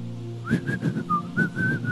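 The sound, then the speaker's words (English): A person whistles with the mouth to imitate someone blowing a whistle. The whistling is a few short, high, warbling notes with breathy bursts between them, and it is heard alone. “So what my father will begin to do is, my father will begin to blow whistle.”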